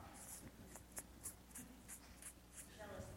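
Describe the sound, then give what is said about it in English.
Faint, squeaky marker strokes on a shirt come as short, repeated scratches with a steady, uneven rhythm, very quiet and alone. “What are some of the sins? I'm going to write them down on this shirt.”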